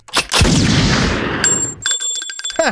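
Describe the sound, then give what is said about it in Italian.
A gunshot: one loud, sharp blast opens a long, rumbling noise that lasts over a second, then gives way to fainter ringing, metallic tones. “Mi hai sparato, infame.”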